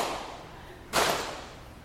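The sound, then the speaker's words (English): A hand slaps a knee to keep a beat, giving one sharp, bright smack that fades quickly, with no talk. “You can clap your hands if you want, but I only have one hand, so I'm going to slap my knee.”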